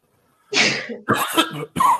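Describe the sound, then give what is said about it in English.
A man coughs three times in quick succession, each a harsh, raspy burst, with short gaps between them and no talk. “I'm sneezing. He's coughing.”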